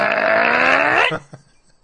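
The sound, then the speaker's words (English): A man lets out one long, deep belch that rumbles steadily for about a second before breaking off, followed by a brief low gulp. “he starts belching like a mofo”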